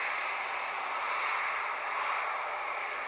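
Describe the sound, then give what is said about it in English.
Airplane engines roar during takeoff as a loud, steady, broad rushing drone that holds without a break from start to finish. “Buckle up, and the captain is ready to prepare for takeoff.”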